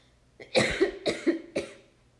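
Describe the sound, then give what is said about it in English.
A person coughs three times in quick succession, loud harsh bursts about half a second apart, with no other sound around them. “I'm so sorry you had to just hear me cough on audio”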